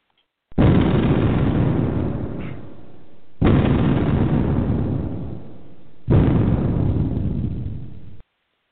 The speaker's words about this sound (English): Seconds later, the house explodes, sending a plume of fire and smoke into the early night sky.